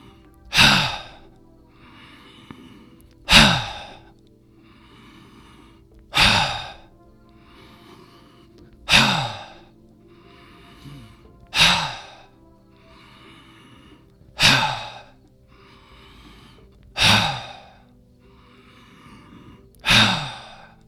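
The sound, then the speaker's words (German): Forceful breathed-out 'Ha' sounds from a standing breathing exercise with a slight knee bend. Eight sharp, breathy bursts come at an even, unhurried pace, each fading quickly into quiet. “Beim Einatmen dann wieder hochkommen, Beine gerade, Schultern runter, ein bisschen in den Knien einsinken und Ha. Ausatmen. Das machen wir jetzt 10-mal.”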